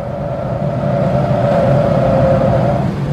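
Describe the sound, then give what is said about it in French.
A taxi car engine hums steadily while driving, a continuous loud drone with a sustained tonal whine over it and no talking. “Et puis ce taxi qui roule pas assez vite.”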